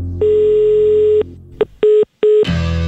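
Telephone tones while someone redials a call: one long steady tone, then three short beeps in quick succession, followed by a burst of line noise.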